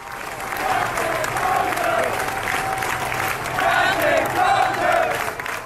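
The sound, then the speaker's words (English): Hundreds of sailors aboard ship cheer, clap and chant their captain's name as he leaves the vessel, a dense, sustained crowd roar with rhythmic shouted chanting and applause that swells and dips throughout. “hundreds of the sailors who are left aboard meet in a relatively contained space, basically say, we're going to cheer this guy off. They're chanting, Captain Crozier.”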